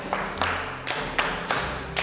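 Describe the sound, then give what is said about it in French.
Schoolchildren in a primary-school class clap after a lesson on keeping the latrines clean, giving about six sharp claps in a steady, evenly spaced rhythm over a low, continuous hum. “Si tu salis les latrines, tu dois les nettoyer avant de sortir. Applaudissez.”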